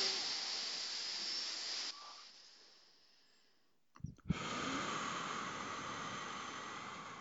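Slow, paced five-count breathing by one person: a long airy hiss of breath that tapers into near quiet, a short gap with small mouth clicks, then another sustained, steady breath.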